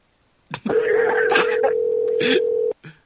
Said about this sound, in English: Hang on, let me call the other one. Let me call the other Roscoe's.